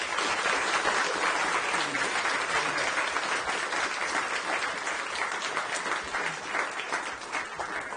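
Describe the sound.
Audience applause welcoming Senator Murphy at an LSE event: a dense, steady wash of clapping from many hands. It holds an even level for the whole stretch and eases slightly toward the end, with no voices.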